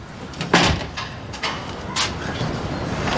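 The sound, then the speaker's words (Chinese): A door being shut and locked, heard as a few sharp clacks and rattles spaced over a couple of seconds against a low steady background hiss. “我锁门了啊”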